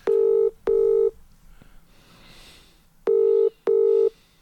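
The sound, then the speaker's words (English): Telephone ringing tone of an outgoing call placed on speakerphone: two double bursts of a steady buzzing tone, each pair of short rings followed by a longer gap, loud and clear with no voices. “I'm going to ring him now. On speaker so we can see how loud he is.”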